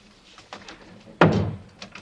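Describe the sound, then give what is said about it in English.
A single dull thump sounds as someone leans against a door. It stands out loudly against a quiet background, with a few faint taps before and after it. “Are you leaning on this door?”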